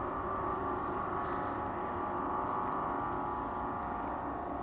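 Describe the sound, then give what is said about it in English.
A boat casting off to leave the harbour at Dieppe gives a steady, low engine rumble with a dense churning hiss, continuous and even in loudness throughout. “That boat is about to sod off.”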